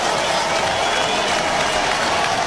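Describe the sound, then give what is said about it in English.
Carolina fans cheering at a baseball game, a steady crowd roar mixed with clapping that stays dense and even throughout. “Carolina fans cheered them on.”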